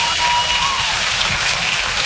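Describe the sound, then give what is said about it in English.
Audience applause at a stand-up comedy show comes as a short burst of loud, dense, continuous clapping with no speech over it. “You're damn right, you should applaud.”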